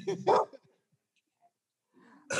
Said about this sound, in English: Sorry about my dog.